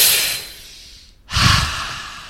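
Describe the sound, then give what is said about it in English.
Breathing in through the nose or mouth: a long, airy hiss that slowly fades, a brief silence, then a louder, fuller breath with a soft low rush. No talking. “And another example of inspiration is breathing in through your nose or your mouth.”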